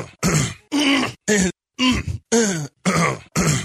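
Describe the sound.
Seven short, loud throat clearings from a man, each a rough voiced burst, coming one after another in a quick, evenly spaced series with nothing else heard.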